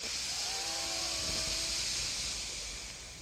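Air is drawn in through the left nostril during alternate nostril breathing, a long, steady, breathy hiss with soft sustained tones beneath it, easing off slightly toward the end.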